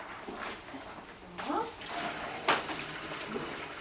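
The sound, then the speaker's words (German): Running tap water splashes as lettuce is washed, a soft continuous rush with a few louder splashy bursts, while voices talk briefly over it. “Magst du den Salat waschen?”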